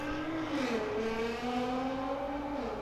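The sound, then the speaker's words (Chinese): A car races and revs outside, its engine whine shifting down, then up, then down again over a steady rumbling base, fairly faint throughout. “我外面有人在飙车。”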